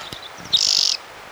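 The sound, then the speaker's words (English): A single bird sings one short, high, buzzy trilled phrase with a rapid pulsing flutter, preceded by a few faint high chips. The call is clear and stands alone against a quiet background. “One bird, two songs.”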